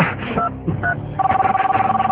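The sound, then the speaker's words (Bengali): A phone number being dialed: a couple of brief electronic keypad tones, separated by a short pause, then a steady pulsing tone that repeats rapidly and evenly. “Phone দিতে হবে, নীলাকে phone দিতে হবে। 0171”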